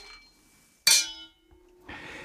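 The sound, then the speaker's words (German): Champagne glasses clink once in a toast: a sharp, bright glassy strike with a short ringing decay, then soft rustling and handling noise. “Lass uns mal anstoßen.”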